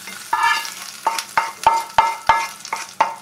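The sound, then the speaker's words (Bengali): A hot spice tempering sizzles as it is added to coconut chutney. Many sharp spoon strikes land in a steady, even rhythm over a soft background hiss. “এবারে চাটনির মধ্যে আমি ফোড়নটা add করে দিলাম,”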